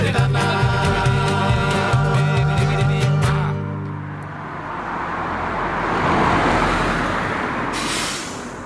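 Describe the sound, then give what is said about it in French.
Street traffic at a bus stop takes over after a few seconds of music: a broad, steady roar of passing vehicles that swells in the middle and eases slightly toward the end. “Bonjour messieurs, mesdames, là vous attendez le bus et on va pas vous déranger longtemps parce qu'il fait pas bien chaud.”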